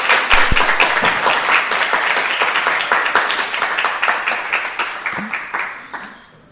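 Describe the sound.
Warm audience applause greeting a speaker at a spiritual lecture gathering. A thick wash of many clapping hands stays strong for several seconds before tapering off and fading out.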